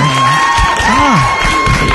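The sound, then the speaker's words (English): Live studio audience cheering as a show guest is welcomed, with excited whoops and high shouted voices over a steady crowd roar. “The audience is very good. I know. Our live studio. We got them in just for you. Oh, settle down now.”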